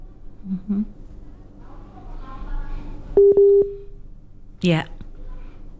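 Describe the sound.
Phone line tones follow a dropped call: a steady mid-pitched tone sounds with brief breaks, and short voices are heard before and after it.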